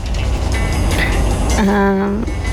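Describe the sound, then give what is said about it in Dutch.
A steady low rumble and rattle fill the inside of a moving train, a constant, heavy drone that continues without a break. “Maar ik zit nu in de trein naar een heel gezellig hemelvaartweekend bij mijn ouders.”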